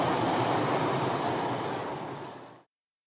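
A tram passing on its rails, a broad, steady roar of wheels that gradually fades, then cuts off abruptly after about two and a half seconds.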